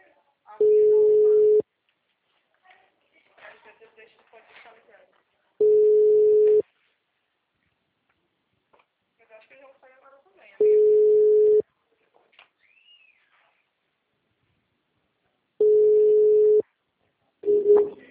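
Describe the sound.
A telephone tone sounds after a dropped call: four steady, mid-pitched beeps of about a second each at regular intervals, a fifth starting at the end, with faint voices in the gaps.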